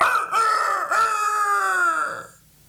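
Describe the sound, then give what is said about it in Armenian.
A rooster crows once, a long drawn-out cry of about two seconds whose pitch falls away at the end, heard alone. “կրտկրտացրին հավերը, ծղրտացին աքլորները։”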